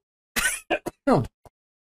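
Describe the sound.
A person gives a dry winter cough and clears their throat in a short run of a few sharp bursts, separated by silence.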